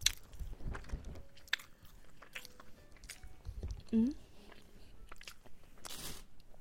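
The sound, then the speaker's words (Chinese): Someone chewing food while eating, with faint, scattered crunchy bites and mouth sounds spread unevenly across a quiet background. “味道怎么样啊？好不好吃啊？”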